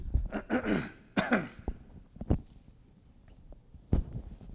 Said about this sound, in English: I'm going to cough again, excuse me.